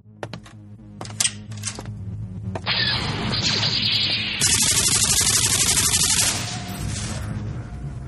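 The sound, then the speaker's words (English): A video game battle fought with a double-barreled nuclear plasma cannon, with loud harsh bursts, crackling static and clattering impacts building into a sustained, noisy barrage before easing off. “Well, I just conquered the outer rim planet of Pico Pond with my trusty double-barreled nuclear plasma cannon. Well, I just did in this video game.”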